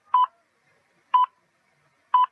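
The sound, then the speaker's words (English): Telephone keypad tones ring out as a number is dialed for a talking-clock time service: three short, identical beeps, evenly spaced about a second apart, fairly faint and alone. “For 66 years, you could dial 1194 to find out the exact time”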